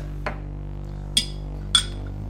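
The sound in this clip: Glasses of whiskey shots clink in a toast, making three sharp, bright chinks spaced apart over a low steady hum.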